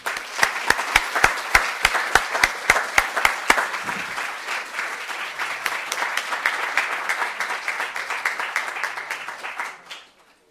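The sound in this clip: Audience applause welcoming an author at a Baltimore event: sharp, evenly spaced claps stand out over dense crowd clapping for the first few seconds, then steady applause carries on before fading out at the end.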